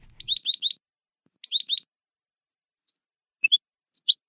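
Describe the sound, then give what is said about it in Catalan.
European goldfinch singing in nature: two quick bursts of four bright, high twittering notes each, then sparse single and paired high chirps, clear against silence. “Així canta la cadernera a la natura.”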